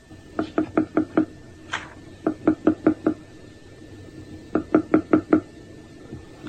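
Rhythmic tapping of a beetle signalling to its own species, with three short bursts of quick, evenly spaced knocks separated by pauses. The taps are fairly faint and dry.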